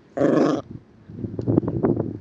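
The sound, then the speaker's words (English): A dog growls: a short, loud throaty burst followed by a run of lower, uneven rumbling growls and grumbles, with no voices. “Dog had a bit of a growling session.”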